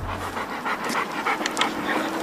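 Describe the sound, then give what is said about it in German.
Two large, powerful shelter dogs pant heavily in quick, rhythmic breaths. The panting is continuous and fairly loud throughout. “Pino und Mowgli, zwei Hunde mit Kraft, ziehen beim Spaziergang gern mal nach vorn”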